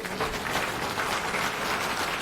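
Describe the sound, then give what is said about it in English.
Audience applause: a dense, even wash of many hands clapping, holding steady for a couple of seconds with no voices over it. “So I ask for everyone for another round of applause specifically for that.”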